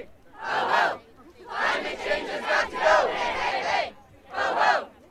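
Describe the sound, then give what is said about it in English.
At a climate protest outside the White House, a crowd chants and shouts in unison in loud bursts: a short call, a long stretch of chanting, then another short call, with brief lulls in between. “Noise from outside the White House, where the teenage campaigner Greta Thunberg led a protest about inaction over climate change.”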